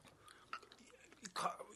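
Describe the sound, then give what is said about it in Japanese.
Crisp apple with cinnamon being chewed, a few crunchy bites bursting out against a quiet background, the loudest crunch coming near the end. “なんだろうこのやっぱりんごって美味しいんだなっていう、このりんごのシャキシャキが”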